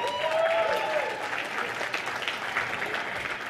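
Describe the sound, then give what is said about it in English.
Audience applause at a management leadership talk, clapping for one table of attendees. Dense, steady clapping holds at a moderate level throughout, easing slightly toward the end. “How about a round of applause for table”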